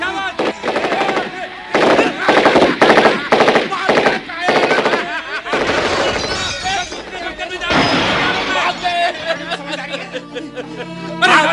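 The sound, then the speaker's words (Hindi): Machine-gun fire rattles in a battle as enemy troops advance: repeated rapid bursts of automatic shots, loudest in the first half, with excited voices shouting over the gunfire. “अरे दुश्मन आ रहे, firing करो,”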